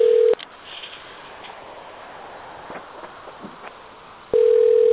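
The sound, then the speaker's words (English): Telephone line tones on a call to an elevator phone number: a short steady tone, then several seconds of hissing line noise with faint clicks, then the same steady tone returns and holds to the end. “Oh, we've got to call that elevator phone”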